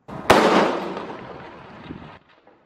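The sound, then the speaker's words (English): A single loud shot from a modified .50 calibre sniper rifle during fighting in Khan Yunis: a sharp, explosive crack followed by a long rumbling decay that fades out over about two seconds. “So this appears to be an Al Ghul sniper rifle, which is a Palestinian a tweak on a 50 cal sniper rifle. It clearly hits that soldier”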